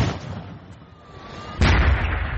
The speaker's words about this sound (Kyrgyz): Окуянын күбөлөрүнүн айтымында газ цистерналарынын жарылганы бир нече чакырым аралыкка чейин угулган.